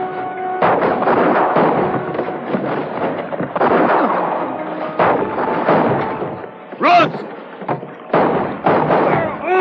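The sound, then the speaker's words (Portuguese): Gunfire in a shootout from a dubbed action film: dense, loud volleys of shots and heavy booming blasts fire almost without pause, with a few short gaps between bursts. “Me dá cobertura. Não parem de atirar.”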